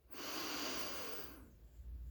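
A deep inhale during a guided breathing exercise: one long, breathy rush of air lasting over a second, followed by quieter breath noise, with no talking.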